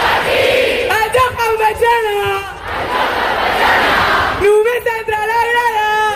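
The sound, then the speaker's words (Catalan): More than 10,000 football fans on Avinguda Maria Cristina cheer and chant as Barça's women's team celebrates its Champions League title. Loud, sustained sung chants alternate with a dense roar of cheering. “És el so de les jugadores del Barça celebrant la Champions davant de més de 10.000 aficionats que es van aplegar a l'Avinguda Maria Cristina.”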